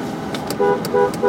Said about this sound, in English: Sometimes I honk and answer.